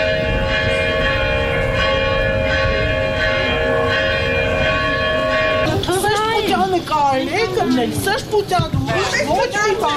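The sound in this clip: Church bells at a church facing a diocesan headquarters ring repeatedly in loud, sustained, overlapping tones; in the second half, voices of people rise over them.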